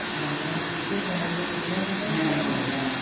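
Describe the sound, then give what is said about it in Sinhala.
An electric fan runs with a steady, even whirring hum that holds the same level throughout without pauses. “දැන් අපි හිතන්නේ fan එක තියෙන්නේ මට ඇහෙන හින්දා කියලා.”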